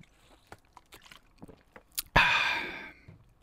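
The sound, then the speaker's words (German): Someone takes a sip of a drink: faint soft slurping and swallowing clicks, then a loud breathy exhale that fades out. “Moment, ich muss einen Schluck trinken.”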